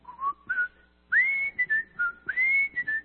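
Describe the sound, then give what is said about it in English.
A person whistles a TV theme tune, clear pure notes in a few short phrases with brief pauses, the melody climbing higher in the second half and heard alone. “one of the games we played was Name That Tune, and I would whistle something like,”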